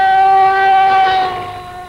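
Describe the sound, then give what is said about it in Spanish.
An ambulance siren sounds as it passes over a nearby bridge: a steady, high, harmonic tone holds loudly, then wavers and fades away. “Una ambulancia pasa sobre un puente cercano.”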